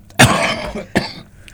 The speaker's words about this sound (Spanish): perdón por la tos.